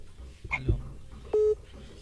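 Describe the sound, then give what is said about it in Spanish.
A single short electronic beep on a telephone line as a caller's phone call cuts off, steady and mid-pitched, standing clearly above faint background noise. “se cortó la llamada”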